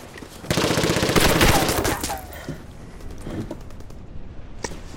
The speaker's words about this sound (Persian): تو برج مسلسل دارن زمین گیرمون کردن.